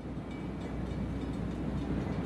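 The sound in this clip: A train travels through a tunnel, giving a quiet, continuous low rumble with a faint rattle that stays even throughout, with no voices.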